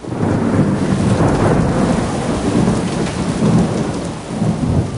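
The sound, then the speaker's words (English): Heavy rain pours down during a thunderstorm near Cape Canaveral. Low thunder rolls and rumbles several times beneath the steady, dense hiss of the downpour throughout. “Rain. Lots of it. And plenty of lightning, too.”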